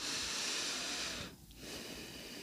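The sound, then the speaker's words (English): A deep breath drawn in during a guided breathing exercise, heard as a soft, steady, airy hiss lasting over a second. It breaks off briefly, then resumes more faintly. “And breathe in again.”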